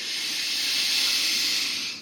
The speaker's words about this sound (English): Inhale deeply.